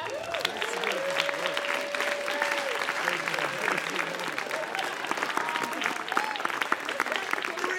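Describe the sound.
Loud, sustained applause greets a comedian walking onto the stage at a comedy show, a dense clapping texture with voices and shouts from the crowd mixed in throughout.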